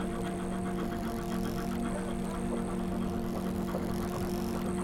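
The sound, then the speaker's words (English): A time machine sound effect starts up as a steady, engine-like droning hum with sustained tonal lines. It holds a constant loudness throughout, and no one talks. “Now, let's crank on the time machine.”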